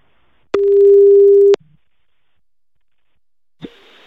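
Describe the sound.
Outgoing telephone call ringing out: a single loud, steady mid-pitched ring tone lasting about a second, then two seconds of silence and a brief click followed by faint line noise.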